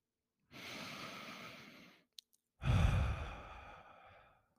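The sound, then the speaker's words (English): Two deep breaths are taken slowly during a guided relaxation exercise: a softer, drawn-out breath, then a fuller and louder one after a short pause, with no talking. “Take a few deep breaths with me. One more.”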